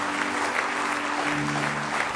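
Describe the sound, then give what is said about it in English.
A church audience claps in praise, a dense and steady wash of many hands that holds at an even loudness from start to finish. “Give him one more good hand clap of praise tonight.”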